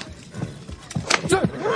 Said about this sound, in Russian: Джамуха садится на коня, уезжает.